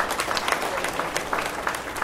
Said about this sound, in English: If we could give him a round of applause.